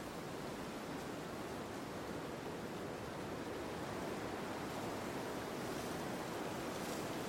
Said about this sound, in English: reveling in the natural powers of the waves.